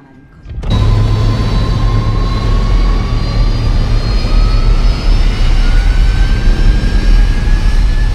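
Jet engines roar inside the cabin of an Airbus A320 on flight Cactus 1549 from LaGuardia to Charlotte. After a quiet opening the engines surge abruptly into a loud, steady roar, with high whining tones that slowly climb in pitch.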